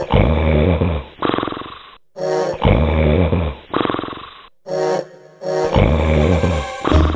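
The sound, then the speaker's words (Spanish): Loud, deep snoring of an ogre in a fairy tale, three long rumbling breaths, each a rasping drawn-in snore followed by a growling exhale, heard alone without talk. “Cuando terminó el banquete, volvió a su habitación y enseguida se oyeron unos ronquidos que temblaba toda la casa.”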